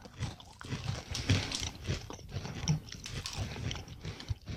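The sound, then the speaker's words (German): Biting and chewing of very hard, crunchy fried rice cracker chunks flavored with garlic, sweetness and chili heat. Dense, loud, continuous crunching and grinding fills the whole stretch, with no talking. “Das sind wahrscheinlich so Reiswaffelbrocken, die dann erst nochmal frittiert werden. Die sind ja auch sehr, sehr hart und fest, also sehr knusprig.”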